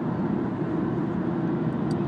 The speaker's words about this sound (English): Yeah, sorry, driving at the same time, maybe not the best thing.